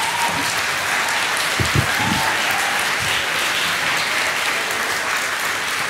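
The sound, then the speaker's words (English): An audience at a Christian gathering applauds in welcome, clapping hands in a sustained, dense wash of applause that stays steady and fairly loud from start to finish. “But come on, let's put our hands together. Say a massive, massive thanks and welcome to Rachel.”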